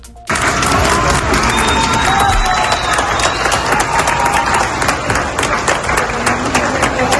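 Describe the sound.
Applause and cheering from a crowd at Valencia airport in Carabobo, Venezuela, welcoming returning emergency rescue teams; loud, steady clapping mixed with shouts, sustained throughout.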